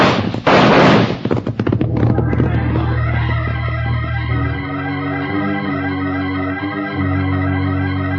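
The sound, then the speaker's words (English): A signal gunshot fired during a raid gives one loud, sharp blast that decays quickly, followed by music that carries on steadily to the end. “I'll fire the signal for everyone to close in.”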